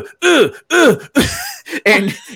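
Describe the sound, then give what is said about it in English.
A voice imitates a man breathing super heavily in bed at night, with a series of loud, strained, voiced huffs and groans in a steady, labored rhythm. “it's him breathing like super heavy”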